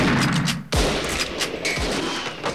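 Rifle shots fired through a window: a few loud, sharp cracks at irregular intervals over a steady noisy background.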